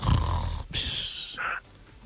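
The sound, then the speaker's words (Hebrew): A voice mimics a wife snoring late at night before dawn: a low, rattling snort, then a breathy hiss and a short whistling tone, fairly loud and alone. “אשתו בשעה כזאת נוחרת.”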